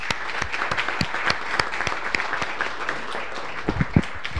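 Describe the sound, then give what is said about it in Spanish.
Applause at a municipal council's inaugural session after new councillors are sworn in, a steady patter of individual hand claps with several louder, sharper claps standing out toward the end. “Un aplauso para todos.”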